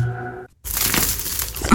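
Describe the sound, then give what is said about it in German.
Crackling crunch of fresh crusty bread being broken: a dense burst of crisp, dry crackles lasting just over a second, following a brief tonal sound and a short silence. “Nichts geht über frisches, knuspriges Brot.”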